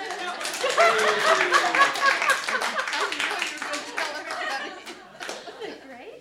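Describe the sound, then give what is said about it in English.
An audience claps in a brisk, dense patter of many hands, with voices and some light laughter over it. The clapping thins and grows quieter toward the end. “You can clap.”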